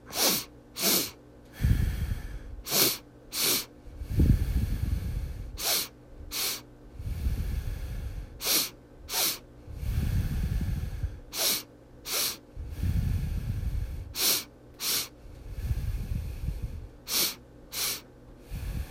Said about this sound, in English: Big inhale through the nose. Exhale it out through the nose. Hold at the bottom.